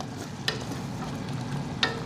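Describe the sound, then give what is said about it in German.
Stirring dal as it cooks in a pot: a steady sizzling, bubbling hiss runs throughout, broken by two sharp clinks of the spoon against the pot. “Ja, währenddessen kocht hier unser Dahl. Ich rühre es gerade einmal rum.”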